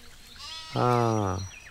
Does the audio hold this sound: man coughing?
no